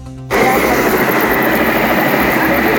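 A helicopter lifting off near a burning tire-recycling warehouse: after a brief quieter moment, a loud engine and rotor roar kicks in abruptly and holds steady, dense and unbroken, to the end.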